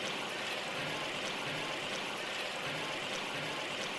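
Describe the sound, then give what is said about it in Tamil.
Soaked tamarind water is poured into a pan of sautéed ingredients for a Chettinad kuzhambu, making a steady, continuous hissing rush that stays even throughout and has no talk over it. “இது நல்லா வதங்கினதுக்கு அப்புறமா நீங்க ஊற வச்சிருக்க புளிக்கரைசலை எடுத்து ஊத்திக்கோங்க.”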